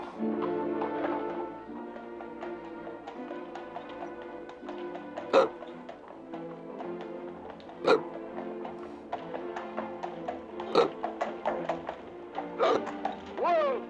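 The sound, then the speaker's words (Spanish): Hiccups from a coach driver: a few sharp, abrupt vocal hics spaced a couple of seconds apart, heard over a continuous bed of music. “Lo siento, señor. Me da hipo. No puedo hacer nada. Me viene muy fuerte.”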